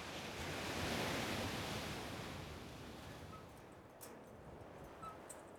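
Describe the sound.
Ocean waves at the seaside make a steady, hissing rush of surf that swells gently, then eases slightly toward the end, with no voices.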